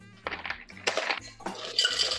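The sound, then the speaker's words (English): Ice cubes clattering into a metal cocktail shaker tin in a few bright, rattling bursts, alone with no talk. “Now we have our shaker tin, and we're going to put some ice”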